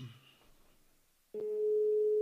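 A steady telephone tone sounds while a call is placed to a veterinarian, starting abruptly after a faint, quiet stretch and holding one even pitch to the end.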